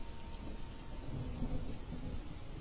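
Thunder rolling during a rainstorm: a faint, continuous low rumble under a steady hiss of falling rain, with no distinct claps.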